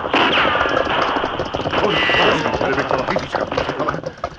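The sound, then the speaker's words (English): Gunfire in an ambush from a gully, on a western trail: a dense run of shots that overlap into a loud, continuous volley for the whole stretch, with no clear pauses between bursts. “Oh, come from gully up ahead. Yes, we'll return their fire.”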